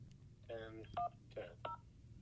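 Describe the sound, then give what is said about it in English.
Telephone keypad tones as a phone number is dialed: four short, faint beeps in an uneven rhythm over a low background hum. “I think we can hear you dialing. That's really cool. Yeah, that is not a sound effect. It's not a sound effect. That was real.”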